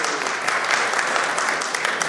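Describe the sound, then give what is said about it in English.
Audience applause for the winner of a competition: a dense, steady wash of many hands clapping at even loudness for about two seconds, with no voices standing out. “So round of applause for that man,”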